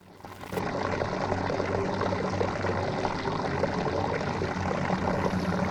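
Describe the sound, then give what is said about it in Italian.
Water from the small fountain in Via della Cisterna, captured on an old portable cassette recorder in the 1980s: a steady, dense splashing rush that starts abruptly and holds at an even level throughout. “E questo è il rumore della Funtanella di via della cisterna che avevo preso con un registratore portatile tanti ma tanti anni fa.”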